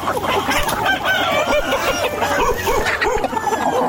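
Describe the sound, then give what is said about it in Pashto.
Hens and roosters kept at a mud house in Ghazni, Afghanistan, cluck and crow together, with a rooster's cock-a-doodle-doo rising over steady, dense flock chatter that stays loud throughout. “په یو څنډه کې تر دېش تانې زیات چرګي چرګان ساتلي”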